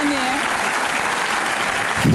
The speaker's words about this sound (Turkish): Koca bir alkış.